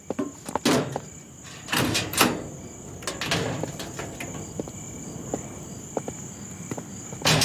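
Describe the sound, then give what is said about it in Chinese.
A door is opened amid several sharp clunks and rattling knocks, while a steady high cricket chirp runs underneath the whole time. “开门。”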